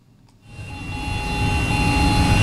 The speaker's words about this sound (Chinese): 在北大荒集团鹤山农场第七管理区，两台大马力机车牵引着电控精量播种机抢抓农时，加紧进行播种作业。